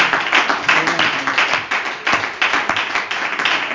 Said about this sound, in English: Let's put our hands together and welcome all the guests and visitors. Can we do that? Come on, let's give her that. Abundant Life Center, put your hands together and let's welcome them.